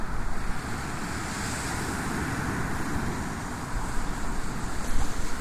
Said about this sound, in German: Wir sind 6 Meter vom Meer entfernt. Kleine Impression, akustische Brandung.